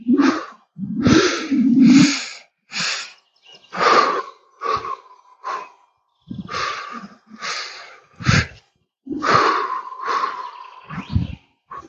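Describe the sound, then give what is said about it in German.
Loud, exaggerated breathing in and out while walking, as in a paced breathing exercise: many audible inhales and exhales in a steady rhythm, with short gaps between breaths. “ich versuche so laut zu atmen und dabei die Schritte zu zählen, dass ihr es auch hört. Und ich beginne. Einatmen, ausatmen.”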